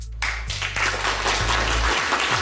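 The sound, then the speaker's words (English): Applause from a university viewing party celebrating a Fields Medal acceptance at the University of Toronto: steady, dense clapping that holds at an even level for the whole clip. “that's the applause from a viewing party at the University of Toronto, as one of its own, Jacob Zimmerman, is accepting the prestigious Fields Medal.”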